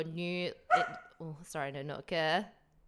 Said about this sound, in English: occasionally Nanook will just bark sporadically, and that means that he's ready for his dental stick